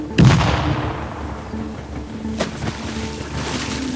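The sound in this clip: Gunfire from a ship shooting at a fast sea creature: a heavy boom near the start, then a sharper shot a couple of seconds later, over a constant rumble of engine and water.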